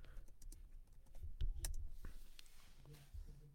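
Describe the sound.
Soft typing on a computer keyboard: many quick, irregular key clicks, faint and uneven in rhythm.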